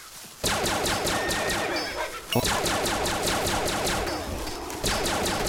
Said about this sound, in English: I just wanted to shoot my can. Don't want to litter.